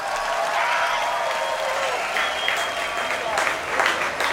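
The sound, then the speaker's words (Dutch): Concert audience applause for the Royal Concertgebouw Orchestra as it comes onto the stage, a dense and steady wash of many hands clapping that holds at an even level with no voices. “wil ik jullie vragen voor een groot applaus voor het Koninklijk Concertgebouworkest onder leiding van de geweldige Han Na Chang.”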